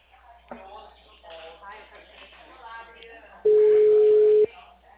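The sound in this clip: An outgoing telephone call rings out, a single steady mid-pitched ring tone lasting about a second, clearly louder than the faint, soft talk before it.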